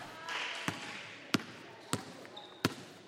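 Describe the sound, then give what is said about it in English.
Basketballs bouncing during a girls' team practice in their home gym: four sharp, evenly spaced thuds stand out over a quiet, hollow background. “Back in their home gym, the Lady Warriors are practicing shooting, passing, and crossover dribbles.”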